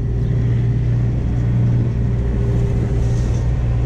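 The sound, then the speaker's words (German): A car engine runs while the car is reversing under a bit more throttle, giving a steady low rumble with a constant drone and no clear rise or fall. “Ja, und rückwärts, ne? Bisschen mehr Gas rückwärts.”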